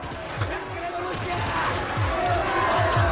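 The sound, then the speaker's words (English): An angry crowd rioting outside and attacking armed guards, a roaring mass of voices beneath a speaking voice, with steady rhythmic low thuds pulsing throughout and swelling slightly louder toward the end. “Outside, the crowd is getting out of hand. People start to attack the armed guards, knocking them to the floor.”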